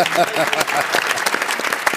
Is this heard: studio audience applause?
yes